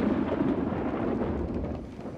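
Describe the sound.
Thunder rumbles during summer rain, a loud, steady, deep roar that holds throughout and eases slightly toward the end.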